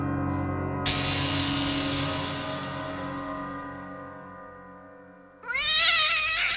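A cat meows twice: first a long, sustained, drawn-out meow, then after a short pause a louder, higher, wavering one.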